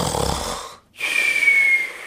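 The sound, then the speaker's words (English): A person imitates snoring with two raspy, breathy snores separated by a brief silent pause, the second carrying a thin whistling wheeze. “Okay, do you know what snoring is? It's like this.”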